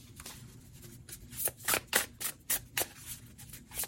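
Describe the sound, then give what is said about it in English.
Oracle cards being shuffled and pulled from a deck, heard as a series of short papery rustles and slaps that cluster in the second half, with no talking. “So let's go ahead and pull some oracle cards and see what else comes out for you.”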